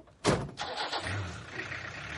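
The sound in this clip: A truck engine starts: a brief cranking burst catches, then a steady low rumble of idling continues, fairly faint and with no talk.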